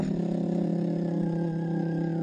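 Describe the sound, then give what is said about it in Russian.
Car engine running with a steady, mid-pitched hum and layered harmonic tones, fairly constant in loudness throughout, with no voices. “Шум мотора за спиной.”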